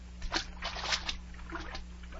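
Splashing and sloshing in a pool of salt water: a few soft, quick splashes followed by lighter trickling movement. The sounds are faint, with a low, steady hum underneath.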